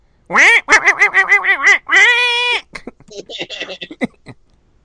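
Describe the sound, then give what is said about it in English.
A voice imitates a cartoon duck: a rapid run of nasal, squawking quack-like syllables ending in one longer drawn-out squawk, loud and alone, followed by a few seconds of ordinary talk. “Do your Donald Duck.”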